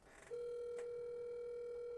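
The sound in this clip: Outgoing FaceTime video call ringing: a faint, steady electronic tone starts after a brief quiet lead-in and holds unbroken at an even pitch to the end.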